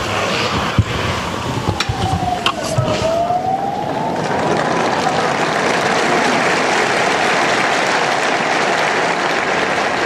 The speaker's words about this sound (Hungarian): Ma sem maradt el a taps, amellyel megköszönik Ferenc pápa áldását, az ő tanítását.